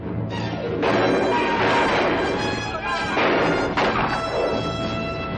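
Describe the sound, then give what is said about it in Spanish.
Gunfire from a shootout in a 1960 western film, with a few sharp, loud shots landing within a thick, continuous wash of noise. “Luis entra en una casa llena de forajidos, la atraviesa disparando y sale por el lado opuesto.”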